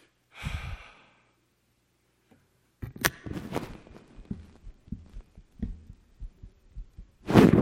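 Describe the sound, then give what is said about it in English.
A heartbeat thumps as many low, soft throbs in a steady rhythm, with a breathy burst at the start and a louder rush of noise at the end. “hear my heartbeat?”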